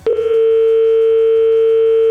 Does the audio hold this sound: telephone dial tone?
yes